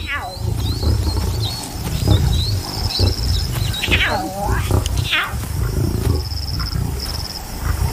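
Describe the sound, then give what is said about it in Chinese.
Lions growling and roaring in a wild pride, a continuous deep rumbling that swells and eases throughout, with scattered higher chirping calls above it. “这群狮子最近过得不错”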